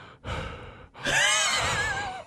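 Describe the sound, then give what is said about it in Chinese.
Rapid breathing in a space film soundtrack: two heavy, breathy gasps, the second longer and louder, with faint sustained tones over it. “好像是呼吸哦，急促的时候”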